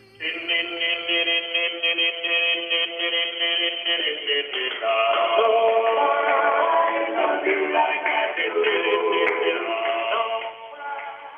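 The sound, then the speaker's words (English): Unaccompanied a cappella singing with no instruments, sustained notes that shift after a few seconds into busier, moving lines, steady and fairly loud throughout. “Acapella sounds like this.”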